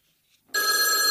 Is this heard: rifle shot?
no